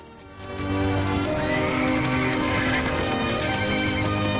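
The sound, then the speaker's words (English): Hoofbeats of a pack of horses galloping through a sunny clearing of tall conifers, a steady, dense drumming that starts a little softer and then holds loud and continuous. “A pack of horses gallops through a sunny clearing of tall conifers, their hooves kicking up a haze of dust which hangs in the sunlight.”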